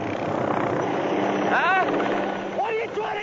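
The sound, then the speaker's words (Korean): A helicopter making an emergency landing, its steady rotor and engine drone running throughout, with brief voices rising above it near the middle and again toward the end. “이곳에 한 대의 헬리콥터가 불시착합니다.”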